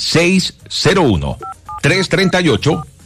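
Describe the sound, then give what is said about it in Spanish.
Telephone keypad dialing tones for a radio show's direct call-in line, a few short, steady electronic beeps set between stretches of a talking voice. “¿Qué deben hacer? Pues marcar ya nuestra línea directa, nuestra línea Plus”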